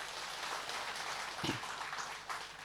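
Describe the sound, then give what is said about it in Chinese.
Audience applause during a sermon, a faint but steady wash of dense clapping that runs throughout without a break. “又给鼓掌”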